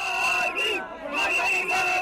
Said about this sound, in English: Gorgui is great, chanted the crowds as Wade made his way through the city.